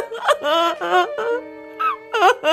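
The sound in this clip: Woman crying sorrowfully in a drama scene, several wavering, high-pitched wailing sobs broken by short catches of breath, loud and strained, with the pitch bending up and down through each cry.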